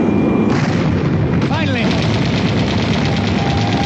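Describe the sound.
Heavy gunfire with bullets flying overhead: a dense, unbroken barrage of shots that stays loud and steady throughout, with a brief descending whizzing sound partway through.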